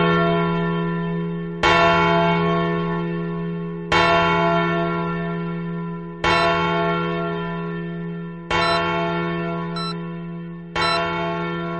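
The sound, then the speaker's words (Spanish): Church bells ring out the New Year's Eve chimes with five slow, evenly spaced strikes. Each rich, metallic toll swells and then hangs in a long fading resonance over a steady low hum, with no voices. “Y las campanadas de Nochevieja fueron amargas.”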